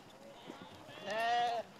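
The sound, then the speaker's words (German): A single sheep bleat from a small group of a lamb and ewes, a wavering, nasal cry that rises out of faint low background noise and ends abruptly. “bringt heute 4 Schafe zum Schlachter. Ein Lamm und 3 Muttertiere.”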